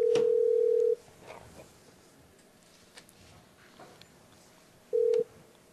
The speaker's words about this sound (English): We're going to dial him up here.